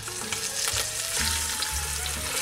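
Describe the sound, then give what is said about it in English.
Pork shoulder sears in a hot pan with a loud, continuous sizzle and crackle of frying fat, steady from start to finish. “All right, so I'm gonna go ahead, I'm gonna add our pork shoulder to this pan and get a nice sear on it. So here we go, we're gonna drop it in.”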